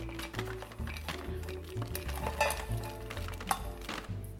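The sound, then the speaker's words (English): Scraping of a slightly cooled chili garlic mixture from hot oil into a food processor: quiet, continuous scratchy rasping with crackly texture and one sharper click near the end. “I'm going to transfer all of this now into a food processor. Scrape that in.”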